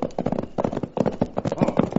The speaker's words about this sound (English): Then suddenly we heard the unmistakable sound of a horse racing toward us.